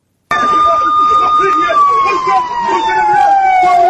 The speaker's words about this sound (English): That sound you hear, that's an air raid siren.